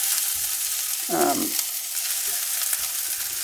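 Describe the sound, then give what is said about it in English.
Food sizzles steadily in a hot cast iron skillet, interrupted by one short, scraping stir about a second in. No voices are heard. “I'm using my cast iron skillet. You guys can use whatever you use, nonstick, whatever you fancy. Give that a little stir to mix it up.”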